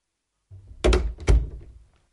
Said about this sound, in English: He went out of the front door into the street.